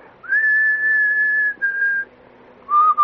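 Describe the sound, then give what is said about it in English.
A person whistles a self-composed tune: a clear, fairly loud held note that slides up at the start, a second sustained note after a short break, then a pause and a lower closing note. “I often do that when I'm just sitting around, not thinking anything. I just go... Sometimes it gets on people's nerves, too. I've heard people say, "We've cut out the whistling."”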